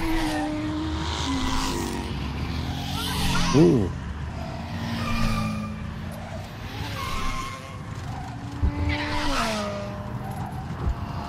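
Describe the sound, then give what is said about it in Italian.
Car and motorbike engines race past in a racing video game set at the Misano Grand Prix circuit. Loud, continuous revving whines shift up and down in pitch, with a few passing swells and a brief squeal of tyres. “Gran Premio di Misano. Auto, moto che passano veloci.”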